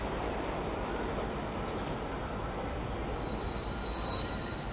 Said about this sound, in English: A train enters the Immaculate Station.